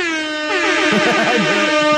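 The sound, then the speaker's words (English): A hip hop style air horn sound effect blares as a loud, sustained, buzzy tone, with a chaotic jumble of other sounds joining in underneath after the first half second. “this is like we're just gonna hip hop air horn right there”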